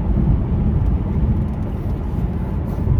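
Low, steady road rumble of a car driving through downtown over potholes, a dense continuous drone without distinct separate jolts or bumps.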